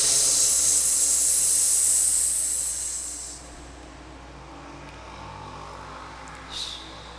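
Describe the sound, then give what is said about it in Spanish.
Slow, deep breathing during a guided chakra breathing exercise: a long, airy exhale hisses steadily for about three seconds, then fades to a faint, quiet breath. “Ahí respiramos despacito con nuestro chakra.”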